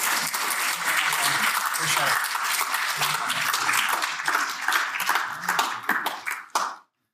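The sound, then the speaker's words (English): Dense, steady applause from an audience at the Crawford School welcoming Treasurer Jim Chalmers, a loud unbroken wash of clapping that thins and stops abruptly near the end. “Please would you join me in giving a very warm welcome to the Honourable Dr. Jim Chalmers, the Treasurer.”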